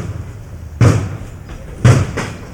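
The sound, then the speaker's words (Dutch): Two heavy, dull blows from a police breaching team forcing open a door barricaded with wooden planks and a thick grating behind it. Each loud thud is followed by fainter knocks. “Inmiddels is een tweede breekploeg bezig om de deur open te krijgen.”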